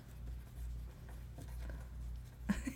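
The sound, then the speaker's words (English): Pen scribbling as something is written down on paper: a faint, continuous scratchy rustle with small irregular strokes, ending in a few slightly sharper marks. “Wait, I'm writing this down.”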